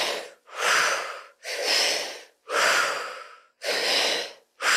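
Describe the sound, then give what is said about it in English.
Fast, deep breathwork breathing, a steady rhythm of loud, forceful, airy breaths at about one per second, alone with no talk. “It's faster, there's more depth to it. So it can sound a little bit more like this.”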